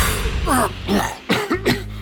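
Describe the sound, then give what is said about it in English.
A voice imitates coughing for a tabletop role-playing character choking on dust, giving several harsh, rasping coughs and throat-clearing bursts separated by short gaps. “he is coughing up a storm as he is just trying to swat the dust out of the way”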